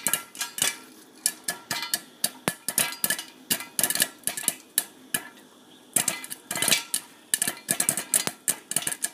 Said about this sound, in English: the sound you just heard was the sound of me popping popcorn with my dad and my sister